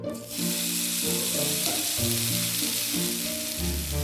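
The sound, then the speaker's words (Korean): Rice mixed with raw egg sizzles in an oiled frying pan, a dense, steady crackling fry that stays loud and even throughout, with low tonal sounds beneath. “날계란을 넣고 비빈 밥을 기름 두른 후라이팬에 지지고 참기름을 섞은 간장에 찍어 먹는데”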